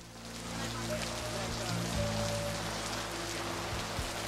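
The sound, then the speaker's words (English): Rain falls outside an office as a soft, steady hiss of drops, with low sustained tones humming underneath throughout. “Outside his office, he sits in the rain.”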